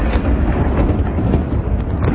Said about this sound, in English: The sound of a Russian missile pelting towards Kyiv was caught on camera by an AP reporter.